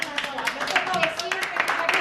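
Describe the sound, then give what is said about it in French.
Village residents applaud a neighbour woman who brought hot meals for displaced people, a steady patter of scattered claps with voices mixed in underneath. “Allez, on applaudit cette dame.”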